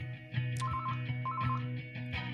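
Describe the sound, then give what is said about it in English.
A telephone rings at an outdoor Thursday produce market in a park: two short bursts of rapid, high electronic trilling over a steady low hum and busy background. “that's the phone.”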